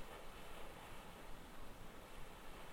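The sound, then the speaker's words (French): Soft sea waves wash over red seaweed left on the shore by the previous tide at winter dusk, heard in a binaural recording as a faint, continuous hiss of surf without distinct breaks. “des vagues sur les algues rouges déposées par la marée précédente,”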